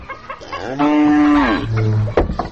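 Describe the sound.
A cow moos in a long, loud, low lowing call, then drops into a shorter, deeper note before trailing off. No voices are heard alongside it.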